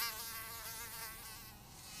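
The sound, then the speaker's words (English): Mosquito buzzing in a faint, steady high-pitched whine that holds without a break, with no other sounds. “Tracy was bitten by a mosquito on her hand.”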